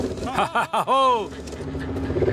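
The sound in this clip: Engine of a vehicle with a flat tyre being started, settling into a steady low running rumble, with brief voice exclamations heard over it early on.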